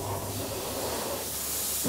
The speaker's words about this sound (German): Jeden Morgen pustet Jürgen seinen Mähdrescher aus. Staub auf dem heißen Motor kann ein ganzes Feld entzünden.